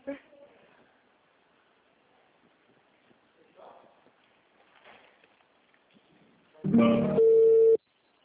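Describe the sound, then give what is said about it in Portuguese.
A single loud electronic telephone ring for an incoming call lasts about a second. It is a steady buzzing tone with strong harmonics and comes near the end, after quiet stretches of faint, scattered sounds. “Olha o senhor Oswaldo me ligando.”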